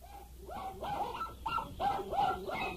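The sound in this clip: A small dog barks in a quick series of high, whiny yaps coming in close succession at a moderate, even level, with no voices.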